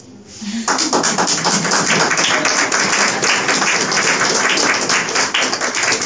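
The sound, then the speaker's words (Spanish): An audience applauds during a sermon, breaking into dense, continuous clapping after a brief quieter moment at the start and holding loud and steady to the end. “aplauda.”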